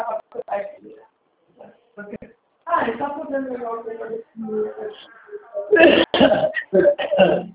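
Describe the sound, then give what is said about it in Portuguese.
Throat clearing with a harsh cough-like burst mixed into ongoing conversation, as people talk throughout. “Ah, pigarreira.”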